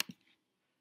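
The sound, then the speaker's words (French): A single sharp computer mouse click in an online memory card game, brief and fairly faint, followed by a soft short tail and then silence. “Il suffira juste que je clique à un autre endroit pour que les deux cartes se retournent.”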